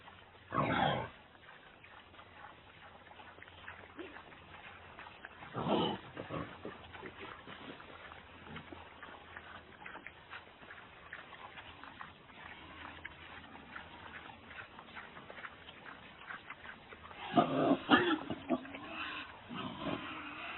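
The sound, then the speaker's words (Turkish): A wild boar gives a few rough, guttural grunts and snorts in separate bursts near the start, the middle and the end. A faint, low rumbling continues between them. “Wild boar. Erkek domuz. Ibu.”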